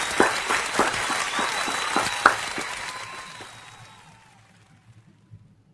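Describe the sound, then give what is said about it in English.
Audience applause welcoming a thriller author as a guest on an interview show. Dense scattered clapping is heard for about three seconds, then it thins and fades out by around four seconds. “I hope it should have been like a standing ovation. That would have been even cooler.”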